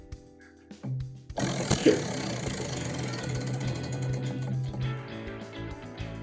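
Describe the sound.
A prize wheel spun on a talk segment: a couple of soft knocks, then a dense, rapid ratcheting clatter of ticks that runs steadily and loudly to the end.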